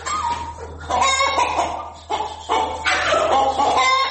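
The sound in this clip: Sick domestic chickens with a viral illness clucking and making hoarse, cough-like calls in several ragged bursts, fairly loud, over a steady low hum.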